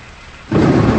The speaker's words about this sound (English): The shadows cast by the rain hitting the window creep across her face.